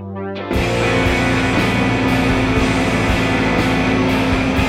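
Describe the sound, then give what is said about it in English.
Five songs playing at once, a loud, dense wash of overlapping music that cuts in abruptly after a short moment and holds steady to the end. “play all 5 songs at once to start for 5 seconds. Sounds like this.”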